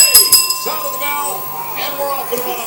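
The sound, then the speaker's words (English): A ring bell at the WrestleMania XVII pro wrestling event clangs a few times, its bright metallic tones sustaining and ringing on over a busy, noisy background. “you put me off with the bell here.”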